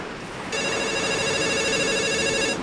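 A telephone rings with a steady, bright electronic ringtone of stacked high tones. It starts abruptly, holds at an even loudness for about two seconds over a faint hiss, then cuts off.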